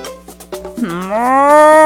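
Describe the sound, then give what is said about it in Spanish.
A cow on a ranch lets out a single long mooing call, deep and harmonic, its pitch rising slightly as it swells louder toward the end, preceded by a few faint knocks. “Una vaca de campo lo vio.”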